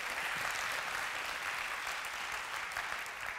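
Audience applause from an audience welcoming guests at a church service, a faint, even, continuous patter of many hands that stays level throughout without distinct peaks.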